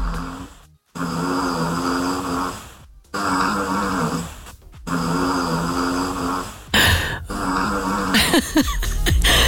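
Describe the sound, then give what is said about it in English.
A dog snoring in its sleep under a bed at night: a few long, rough, droning snores repeat at a steady rhythm with brief pauses between breaths, and a noisy rustling burst comes near the end. “That is my dog, Tilly. I recorded her last night under our bed, snoring her head off.”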